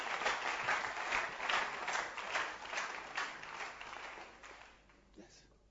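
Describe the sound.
A church audience claps their hands in a loud, dense patter of many hands that gradually thins out and fades toward the end.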